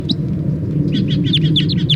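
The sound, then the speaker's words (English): Wild birds calling in a quick run of many short, high chirps, grouped mostly in the second half, over a low, steady rumble. “And then the wild birds. Wild birds.”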